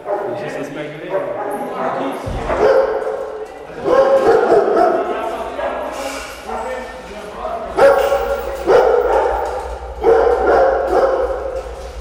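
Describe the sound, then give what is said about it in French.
Several dogs bark and yip while waiting for their food bowls. Repeated loud, overlapping bursts echo strongly, with a voice talking at times. “déjà ça résonne énormément alors que vous avez tous les chiens qui aboient parce qu'ils attendent la gamelle”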